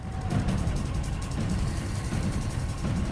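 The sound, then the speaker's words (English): A truck climbs a narrow, winding mountain road, its engine giving a steady, low rumble with broad road noise that stays even and unbroken from start to finish. “Alice drives on up the narrow, winding mountain road.”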